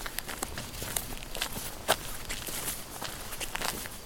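Soft, quick footsteps of someone approaching run steadily throughout, with one sharper knock near the middle.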